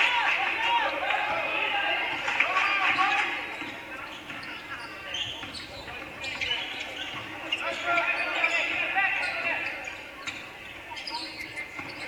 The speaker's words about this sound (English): dribbling with the right hand